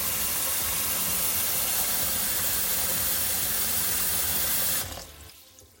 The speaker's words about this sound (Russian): Теперь я могу погрузиться под воду и записать видео с мошенником.